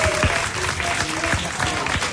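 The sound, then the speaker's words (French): Audience applause for a musician at a live evening event: dense, steady clapping with faint voices mixed in beneath it. “On l'applaudit s'il vous plaît.”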